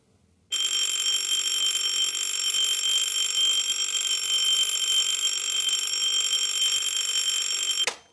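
An alarm clock rings beside a bed in the morning, a loud, continuous, bright metallic ringing that starts abruptly and holds steady for about seven seconds before stopping.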